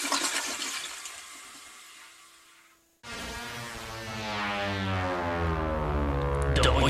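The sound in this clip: A toilet flush: a hissing rush fades almost to nothing, then the flush bursts in with loud, swirling water draining away, growing steadily fuller toward the end.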